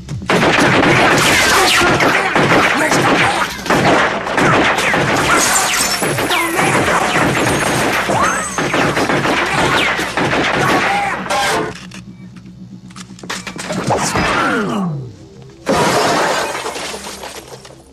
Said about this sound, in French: Je commence à tirer dans 3 secondes.